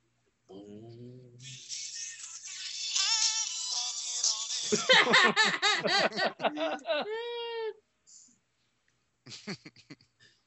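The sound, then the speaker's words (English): A mobile phone ringtone plays for an incoming call, a loud, busy run of giggling, chattering voice-like tones rising in intensity for several seconds, then stopping before a brief final burst. “The funny thing is that's my ringtone and someone's trying to call me, so I figured I'd give you a little taste.”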